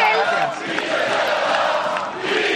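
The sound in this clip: Football crowd chanting for Girona player Mitchell, a dense, loud roar of many voices that holds steady through the whole clip without clear breaks.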